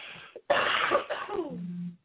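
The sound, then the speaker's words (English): A person coughs: a brief catch, then a harsh, rough burst of coughing that ends in a lower voiced tail, fairly loud and with no talk over it. “I got another cough coming. Excuse me.”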